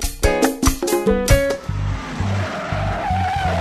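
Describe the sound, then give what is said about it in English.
A car burning rubber in a 1968 movie filmed in San Francisco: a few sharp engine revs are followed by a sustained, wavering tire squeal over a rumbling motor. “That's the sound of Steve McQueen burning rubber in the 1968 movie Bullet.”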